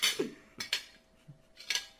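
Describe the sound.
Dishes and cutlery clatter as people start eating a home-cooked meal of hotdog and eggs: a few bright, sharp clinks and scrapes, with softer gaps and a dull low knock between them, and no voices.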